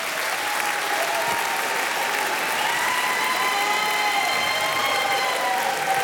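A studio audience applauds during a live radio show, with thick, continuous clapping at a constant loud level throughout, no breaks or individual claps standing out.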